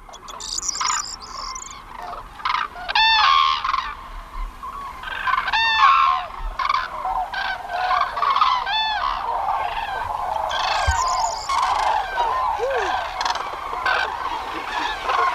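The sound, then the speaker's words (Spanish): A flock of cranes calls while coming down to land at Gallocanta lagoon, with many loud, overlapping trumpeting calls repeating in bursts throughout. “Se oye el aleteo, que están bajando, y ahí vienen unos cientos.”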